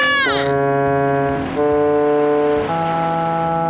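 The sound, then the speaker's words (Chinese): A ship's steam whistle sounds continuously as one loud, steady, harmonic blast that never breaks. Its pitch shifts in a few abrupt steps. “这汽笛响起来没完没了，我实在是顶不住”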